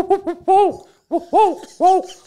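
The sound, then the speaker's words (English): A person imitates an owl with a series of hooting calls that rise and fall in pitch. A few short hoots come first, then longer, louder, drawn-out hoots separated by brief pauses. “Yeah, that was a good owl.”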